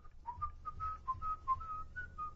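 A person whistles a TV sitcom theme tune, a clear, bright melody of many short, steady notes in a lilting rhythm, heard alone.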